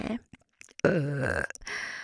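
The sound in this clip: A drawn-out, loud burp with a wobbling, falling pitch, set against near silence and surrounded by short vocal sounds.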